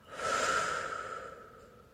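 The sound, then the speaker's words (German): A deep breath drawn in and let out slowly during a guided relaxation exercise. It is one long, soft, airy breath that swells quickly and then fades gradually over about two seconds, with no talking. “Atme einmal tief ein und langsam wieder aus.”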